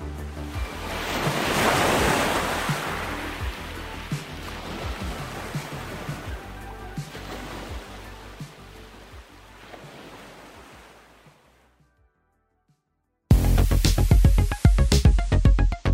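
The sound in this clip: Ocean waves break at the beach in a continuous rushing surf with wind, swelling loudest early on, then slowly ebbing to near silence before an abrupt switch to a different sound.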